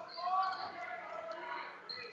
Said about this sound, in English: And he's dribbling through his legs.